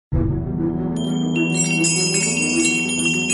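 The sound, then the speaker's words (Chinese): Small bells on a crystal birdcage jingle and tinkle brightly. The chiming builds over a sustained, resonant musical tone. “他马上拿起了水晶鸟笼，可是鸟笼上的铃铛却叮铃叮铃的响了起来，惊醒了老婆婆。”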